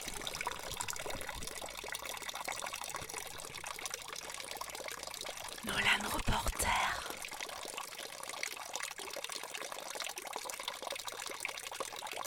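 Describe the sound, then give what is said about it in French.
Small drops of water falling in a somewhat dirty town fountain: a steady, faint trickling wash with a brief louder splash in the middle. “On entend les bruits d'eau qui tombent, les petites gouttes d'eau à la fontaine de Sainte-Croix.”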